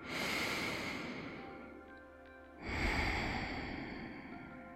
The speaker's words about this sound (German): nimm jetzt noch einen letzten bewussten Atemzug tief in den Bauchraum